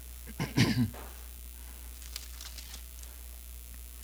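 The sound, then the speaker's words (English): A brief burst of coughing from someone with a persistent tickle in the lungs, a short, loud cough then quiet with a few faint taps. “I hope you can forgive me for the coughing.”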